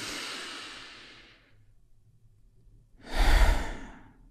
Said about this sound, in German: Und weil es so schön ist, nehmen wir noch einen zweiten tiefen Atemzug.